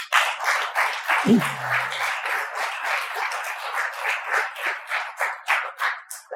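Audience applause welcoming a guest, Richmond Fed President Tom Barkin, with individually distinct claps in an uneven, pulsing rhythm that stays at a moderate, steady level throughout.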